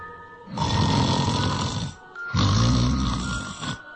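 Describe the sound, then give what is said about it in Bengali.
A person snores deeply while asleep at night: two long, rasping, low snores, each over a second long, separated by a brief pause. “Ramlal যথারীতি নাক ডাকিয়ে ঘুমোতে শুরু করল”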